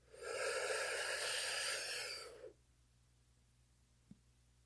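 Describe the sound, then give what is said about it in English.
A deep breath during a guided relaxation exercise: a soft, airy rush of air lasting about two seconds, then near silence. “So go ahead and take another deep breath in.”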